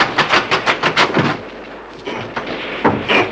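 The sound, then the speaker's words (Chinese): Gunfire opens with many rapid, sharp bursts in quick rhythmic succession, then thins into fewer, more irregular reports. The shots are fairly loud, with no speech over them. “快，快走！保安团的人和你们开火了。”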